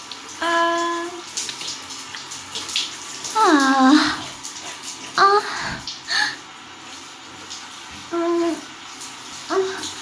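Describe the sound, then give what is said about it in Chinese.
Bath water sloshes and splashes in a tub while someone is being bathed, in soft intermittent movements with several brief tonal bursts between quieter stretches. “帮我洗吧，我好好洗啊！哎，你别说，别人帮你洗澡的感觉还挺舒服的”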